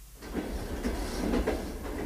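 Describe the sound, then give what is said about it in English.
A morning train riding the rails, heard from aboard: a steady, low rumble of wheels on track with faint, irregular clicks and knocks through two seconds, and no voices. “We are riding the rails”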